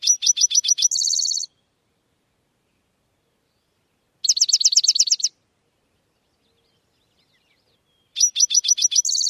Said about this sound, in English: The mystery sound is a western towhee. These are also called spotted towhees,